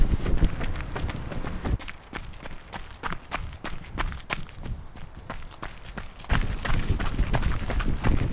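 Running footsteps on a gravel path along the Otra river, with many quick, rhythmic footfalls crunching steadily throughout and growing a little louder near the end.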